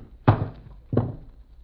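Two dull, heavy thunks as a gun belt is taken off and set down, the second a little softer than the first, with no talk over them.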